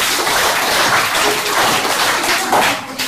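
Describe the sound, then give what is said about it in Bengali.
Audience clapping at an 80th Independence Day gathering, a fairly loud, dense patter of many hands that continues steadily across the moment with slight swells. “ও ভালো, হাততালি হয়ে যাক।”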